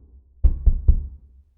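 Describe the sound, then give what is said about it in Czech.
Three dull, low thuds knock in quick succession on a neighbour's apartment door at night, evenly spaced and fairly loud, with a short fading tail after the last blow. “Tentokrát ho z postele vytáhly cizí hlasy a opakované tupé údery na dveře sousedova bytu.”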